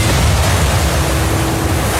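Storm at sea, with crashing waves and howling wind forming a loud, continuous, unbroken roar that holds steady throughout, with no voices.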